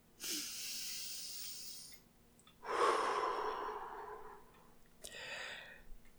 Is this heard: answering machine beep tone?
no

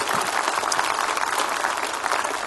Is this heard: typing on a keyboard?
no

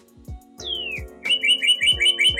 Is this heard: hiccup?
no

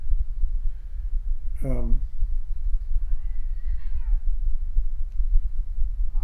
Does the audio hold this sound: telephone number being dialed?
no

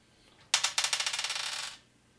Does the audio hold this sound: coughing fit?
no

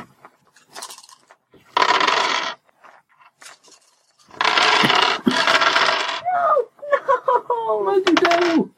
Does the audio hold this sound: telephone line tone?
no

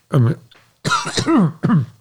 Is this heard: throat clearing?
yes

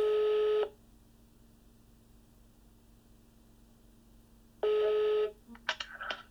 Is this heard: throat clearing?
no

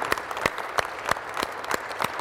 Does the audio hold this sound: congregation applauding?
yes

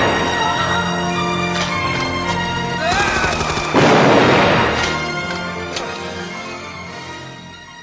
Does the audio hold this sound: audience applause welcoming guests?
no

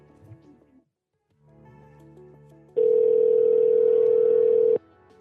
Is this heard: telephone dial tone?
yes

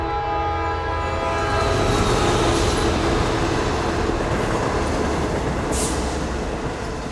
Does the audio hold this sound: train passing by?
yes

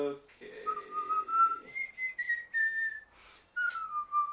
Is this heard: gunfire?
no

